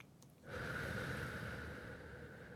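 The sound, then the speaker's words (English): A long, soft exhaled breath during a guided breathing exercise. After a brief silence it becomes a steady, airy rush that lasts to the end, quiet and with no other sound. “And then an exhale.”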